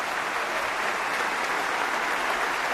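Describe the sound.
A concert audience at the Opéra Berlioz in Montpellier applauds after Bruch's Violin Concerto in G minor, played with the Deutsche Kammerphilharmonie Bremen. The clapping is dense, even and continuous throughout.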